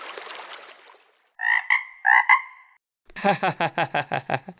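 A frog croaks: two drawn-out, buzzy croaks, then a quick run of many short pulsed croaks in a steady rhythm, fairly loud and with no voices.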